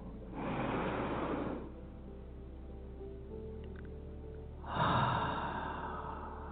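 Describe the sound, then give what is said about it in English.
Two deep inhales in a guided breathing exercise, each a breathy rush lasting about a second, separated by a long quiet stretch, with no talk. “And another inhale.”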